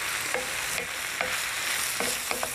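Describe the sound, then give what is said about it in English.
Vegetables frying in a pan, lightly salted and turning crisp, give a steady soft sizzle broken by a few sharp scraping clicks as they are stirred. “As you can see, these are they're getting lovely and crisp. They probably just need a few more minutes of cooking through”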